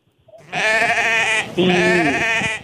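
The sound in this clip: Sheep bleating in two long, loud, wavering bleats, one after the other, with a short gap between them.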